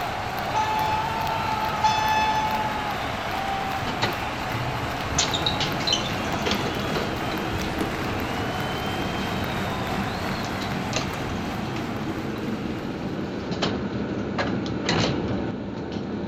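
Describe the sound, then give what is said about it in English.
A fictional elevator sound effect: a steady mechanical rumble and hum runs throughout, with a brief ringing tone near the start and scattered clicks and thumps along the way. “The best metaphor I have to get us there is this specially designed O-R&R fictional elevator.”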